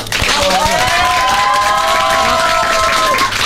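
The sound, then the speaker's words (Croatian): Applause and cheering from an audience at a children's show finale, loud and continuous throughout, with voices shouting and calling out above the steady clapping. “Isto jedan pljesak.”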